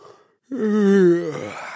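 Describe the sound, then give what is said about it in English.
A single human yawn: after a brief silence comes a drawn-out voiced sound lasting under a second, which trails off into a breathy exhale. “Let's take the everyday sound of a yawn”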